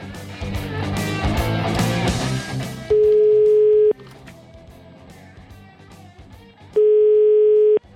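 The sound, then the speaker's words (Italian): An Italian telephone ringback tone while calling home: two long, steady, mid-pitched beeps of about a second each, separated by a gap of several seconds, louder than the quieter background between them. “Tocca chiamare casa”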